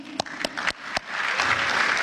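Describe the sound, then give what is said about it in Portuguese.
Applause for a minister at a session, starting with a few scattered claps that swell into a steady wash of clapping. “Palmas para o ministro Fux!”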